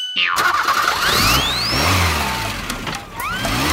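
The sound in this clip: A car engine starts and revs hard, its whine climbing in rising sweeps. It eases off briefly near the end, then surges again, loud throughout with no voices.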